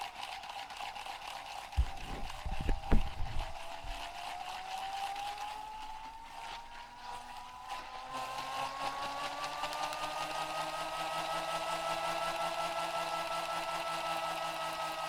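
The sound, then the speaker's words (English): A small gyroscope inside a plastic ball whirs as it spins up after being wound backward by thumbs. A few dull knocks come first, then a steady whining hum rises gradually in pitch before holding fairly even to the end. “It's just a gyroscope inside of a little plastic ball, and I'm going to wind it backwards with my thumbs, let go of it, and then stir the pot.”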